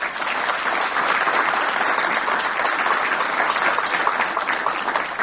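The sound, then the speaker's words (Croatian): An audience gives a big round of applause for an award-winning journalist and writer, dense, steady clapping from many hands held at an even, loud level throughout, with no speech over it. “Zaista zaslužuje jedan veliki aplauz.”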